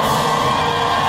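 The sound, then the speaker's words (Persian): Cheering and joyful shouting of Iranian women futsal players celebrating an Asian championship win, a dense, loud, unbroken wash of many voices whooping and yelling together. “این صدای هلهله و شادمانی بازیکنان فوتسال زن ایرانی است”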